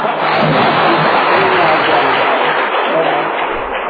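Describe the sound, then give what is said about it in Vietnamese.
Clapping from a group of people, a steady, dense burst of applause that stays loud and even for about four seconds before easing slightly at the end. “Một lần rồi, hay quá. Để ghi vỗ tay lần nữa.”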